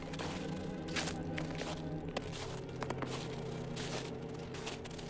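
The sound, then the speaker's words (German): Footsteps walking across a frozen river, a series of soft, irregular thuds under a steady, loud hiss of noise. “Über den zugefrorenen Fluss läuft Kunkel zu seiner nächtlichen Insel.”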